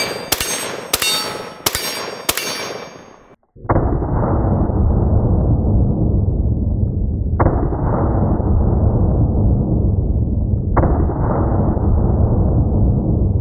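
A rifle fires 113-grain full metal jacket rounds, with steel targets downrange: a few sharp, quick cracks, then three heavier blasts, each with a long rumbling tail.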